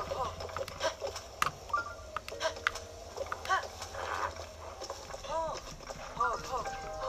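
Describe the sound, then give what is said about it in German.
Horse hooves clip-clopping in an uneven rhythm, many sharp knocks over a rustling background, while a person talks to the horse in between. “Du bist ein gutes Pferd.”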